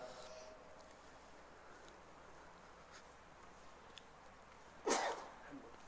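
One sharp, explosive sneeze bursts out near the end, well above an otherwise quiet, faint background hiss.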